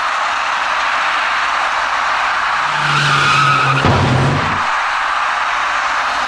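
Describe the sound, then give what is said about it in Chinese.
An electric bicycle skids on a wet intersection road after rain and hits the rear of a turning car. A rising tire screech grows out of steady background noise and ends in one sharp impact crash, followed by quieter noise. “那位由北向南直行的骑车人发现那辆开始向右转弯的小客车后，因为心中慌乱，没能控制好车身，滑出去的电动自行车撞到了那辆小客车的右后部车身。”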